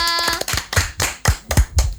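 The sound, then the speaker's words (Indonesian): Hands clap in applause, about seven sharp, loud claps in an uneven rhythm, briefly preceded by a faint steady tone. “Tepuk tangan untuk Kakak Tika.”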